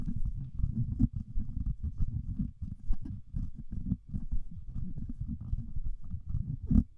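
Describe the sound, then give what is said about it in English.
Handling noise from a Sennheiser MD435 handheld microphone passed back and forth between hands in an untreated room: continuous low rubbing and rumbling with frequent soft thumps for seven seconds, no voice. “Now, because this is a handheld microphone, I'll go ahead and pass it back and forth between my hands to see how much handling noise it rejects.”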